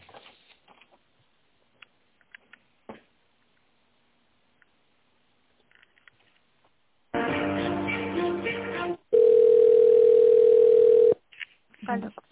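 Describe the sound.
A steady telephone ringing tone plays while a call is transferred to an accounting department. One long, unbroken mid-pitched beep lasts about two seconds, preceded by phone-line talk and a dense burst of noise, with voices returning afterward.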